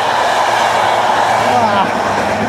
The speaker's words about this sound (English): Sorry about that. That was a train. Good morning. That is the 7:10 a.m. towards Brussels going right there.